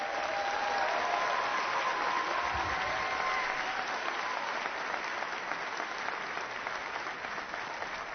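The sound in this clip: An audience applauds to welcome a speaker, a steady, sustained wash of clapping from many hands that holds an even level and eases off slightly toward the end.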